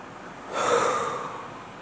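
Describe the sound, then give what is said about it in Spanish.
A single deep breath swells in after a quiet start, holds as a steady airy rush, then slowly fades. No voices are heard. “Inhalando. Exhalando.”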